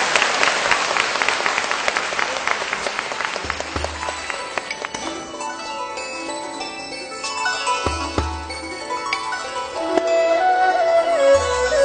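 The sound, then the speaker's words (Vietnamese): An audience applauds singers and a dance troupe at a Vietnamese music show, with steady, full clapping throughout and ringing, bell-like musical tones and low notes mixed in. “Xin hãy dành một tràng pháo tay thật nồng nhiệt cho các nghệ sĩ của chúng ta.”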